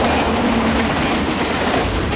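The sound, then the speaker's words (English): A train passes a cemetery with a loud, steady rumble and a rhythmic clickety-clack of wheels on the rails, filling the short clip without letup. “a train passes the cemetery.”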